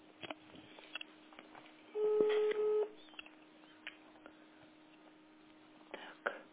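A telephone call is dialed, marked by a short two-part electronic beep amid faint clicks and handling taps, with a quiet steady hum underneath.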